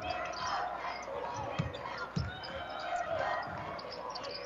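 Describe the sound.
Basketball dribbled during a boys' state high school quarterfinal game, with a few low, dull bounces under a commentator's steady voice and a constant background din.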